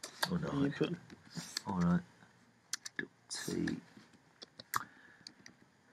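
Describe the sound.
Typing on a computer keyboard: a scattering of sharp, irregular keystroke clicks after a person speaks, spread across the second half.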